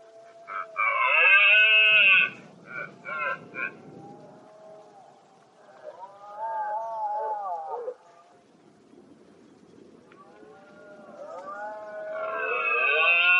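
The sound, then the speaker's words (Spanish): Red deer stags bellowing during the rut: a few long, loud, harmonic roars that rise and fade, with lower rumbling groans between them. “¿Qué es eso que suena? A ver, es la berrea, como nos ha dicho Paula. Es verdad. Escuchad.”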